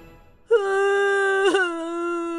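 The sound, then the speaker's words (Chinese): A cartoon character bursts into tears with a loud, sustained, high-pitched wail that starts abruptly. A brief sob-like break comes midway, then the steady crying tone continues. “哇的一声哭了出来。”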